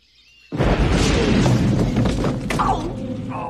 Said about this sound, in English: He pulls the pin and lobs it forward. The grenade plops into the water right next to Bill.